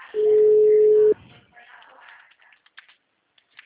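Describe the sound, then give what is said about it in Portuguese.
A telephone tone after a dropped call: one loud, steady, low-pitched beep lasting about a second, followed by faint background noise and a few soft clicks. “a senhora desligou ou caiu a ligação?”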